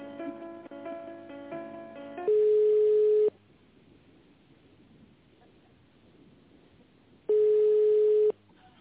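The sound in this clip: Telephone line tones while a call connects: a short burst of mixed tones, then two long, steady mid-pitched beeps of about a second each, separated by a roughly four-second quiet gap of low line hiss.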